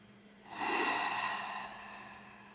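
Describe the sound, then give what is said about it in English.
A deep breath is drawn in through the nose and let out audibly. A single breathy rush swells after a short pause, then gradually tapers away over about two seconds with no talk. “Take another big deep breath in through your nose and audibly exhale again.”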